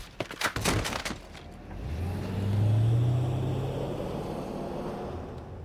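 Car driving, its engine a low steady rumble that swells and then holds, after a few sharp clicks at the start.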